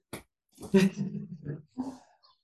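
Barking-like calls from a pet sitting at a window, wanting to be let in. A few short harmonic yelps surround one longer drawn-out call, fairly loud and heard alone.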